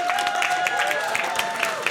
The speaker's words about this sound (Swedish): en applåd för deras mix.